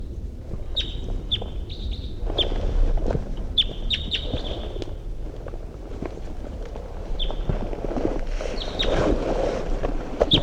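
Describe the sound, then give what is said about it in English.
A wild bird sings in flight, giving many short, high chirps in scattered bursts over steady wind noise and low rumble. “Wild bird's coming in. Wild bird. In flight. Wild bird song phrase.”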